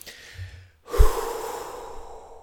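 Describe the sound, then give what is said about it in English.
A big breath drawn in deliberately: after a soft, faint stretch, one long, loud, airy rush of breath fills the rest of the moment, breathy and unvoiced, with no talking. “That was me taking a big breath.”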